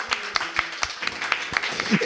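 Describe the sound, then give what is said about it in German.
Audience applause after a theatre show in Innsbruck, a spread of sharp individual claps in an uneven rhythm, moderately loud, with a voice speaking faintly underneath. “oder geben Sie sich mal selber einen Applaus ja. für Innsbruck.”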